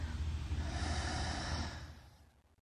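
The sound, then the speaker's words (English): A strong, forceful exhale through the nose or mouth during a guided breathing exercise: one long, breathy rush of air that holds steady, then tapers away to silence over about two seconds. “Strong exhale.”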